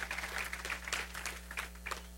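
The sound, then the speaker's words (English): A church audience claps in praise during a sermon, with many quick overlapping hand claps forming a steady patter over a constant low electrical hum. “Somebody give God a hand clap of praise and a shout of glory in this place.”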